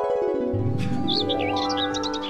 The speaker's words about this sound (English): It's bad enough I have to hear the birds chirping to wake me up